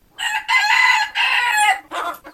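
A rooster crows at a free-range chicken farm: one loud, drawn-out, raspy call broken into several parts, with a short higher final burst. No voices or other farm noise are heard.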